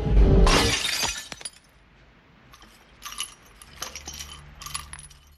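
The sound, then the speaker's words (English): An opaque glass jar smashes in a sink with one loud, crashing shatter. After a pause, a few scattered light clinks and rattles follow. “He takes the opaque glass jar over to the sink and smashes it.”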